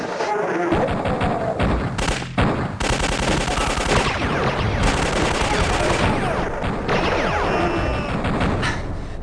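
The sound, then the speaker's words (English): Dense video game gunfire as a player shoots his way into a level: loud, continuous rapid bursts like machine-gun fire and heavy blasts, with crashing impacts running throughout, no voices. “I'm just going to shoot my way into chapter one. Here I go!”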